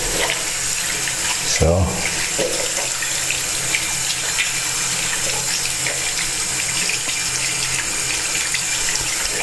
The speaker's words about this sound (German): Nochmal richtig Hände waschen.